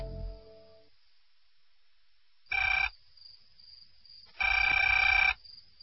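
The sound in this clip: A landline telephone ringing: two bursts of electronic ringing, the first short and the second longer, with quiet gaps around them after a fading tonal sound at the start.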